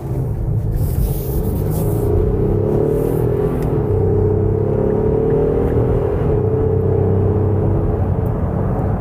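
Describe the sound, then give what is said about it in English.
Engine drone from a 2023 Nissan Pathfinder's 3.5-liter VQ engine accelerating in sport mode: a steady, loud, low rumbling hum with a whirring tone that holds evenly throughout, with no talking. “So I'm going to put this into sport mode right now, and we will take this for a ride. Let's hear this 3.5 liter VQ.”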